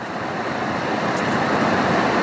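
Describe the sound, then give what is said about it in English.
Steady road traffic noise, a dense continuous rumble and hiss of passing vehicles at an even, fairly loud level throughout, with no talk over it. “God damn, this traffic.”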